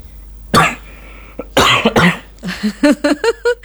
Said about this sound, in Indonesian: batuk ya. Aduh, mohon maaf ya